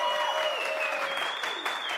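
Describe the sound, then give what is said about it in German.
Audience applause for quiz contestants: a round of many hands clapping that stays fairly loud and steady, with a faint sustained tone running underneath. “trotzdem gibt es eine Runde Applaus für euch.”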